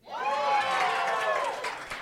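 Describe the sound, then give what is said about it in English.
A game-show studio audience cheers for a contestant's movie pick. Many voices whoop and shout together in a loud, steady burst that holds for about two seconds and eases off slightly at the end. “That's a fun part about this game is they cheer for the movies they like. So if you pick ones that they like, it gets a big reaction.”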